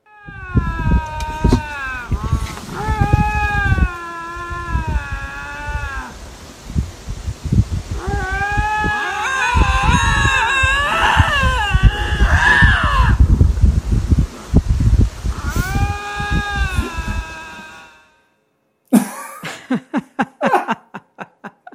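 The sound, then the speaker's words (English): Two lynx calling to each other at close range, trading long wavering yowls and wails that rise and fall in pitch, in several drawn-out bouts, ending after a short pause with a few sharp, abrupt calls. “These two lynx are, you know, maybe 6 feet apart at the max, and they've come across each other and they're in full throated communication.”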